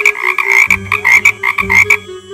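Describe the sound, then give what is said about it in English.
Frog-like croaking comes from a young woman who tries to sing: a quick string of rough, throaty croaks in short, loud bursts, repeated many times with no talk. “tries to sing and ends up croaking.”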